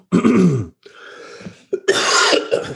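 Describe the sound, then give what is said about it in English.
Coughing from someone with a COVID cough: a loud, rough burst, then a weaker rasping stretch, then another strong, harsh throat-clearing cough, all close and alone with no talk. “COVID cough.”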